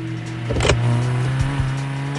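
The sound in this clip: A black car's engine drives off with a steady low droning hum and tonal whine, with a brief louder surge early on and a couple of short thumps later.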